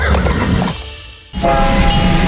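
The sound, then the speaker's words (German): A steam locomotive on the Cottbus park railway running, heard as a loud, steady rumble that dips briefly partway through and then returns at full strength. “Erlebt die Dampflok Graf Arnim live in Fahrt”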